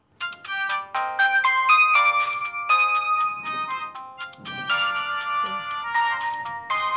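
A phone rings on an outgoing call to a mother, heard as a bright, melodic electronic ringtone that loops continuously and loudly for several seconds, with no voices.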